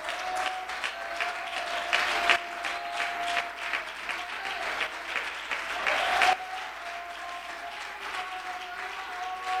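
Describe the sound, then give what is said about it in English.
Applause from a church audience during a sermon: a dense, steady wash of many hands clapping, holding at a fairly even level throughout with slight surges. “Come on, if you believe that, put your hands together.”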